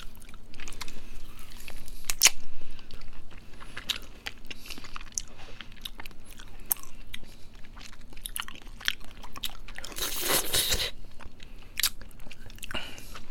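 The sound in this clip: Crisp bites and crunchy chewing of a caramel-flavoured Meet Fresh ice pop, heard as many short, sharp crackles spread throughout, with a denser crunching burst toward the end.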